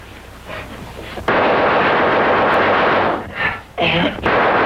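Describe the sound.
Loud gunfire with bullets stitching past during a struggle with a fierce guard dog: a low rumble for about a second, then a sudden dense, sustained barrage that dips briefly twice before surging again.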